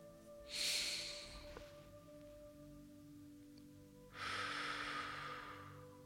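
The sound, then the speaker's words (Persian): Slow breathing in and out during a guided mantra meditation comes as two long, soft, airy breaths. The first is short and the second is longer, separated by a few seconds of near quiet, with a faint steady hum beneath. “دم میگیریم بازدم یک دم میگیریم”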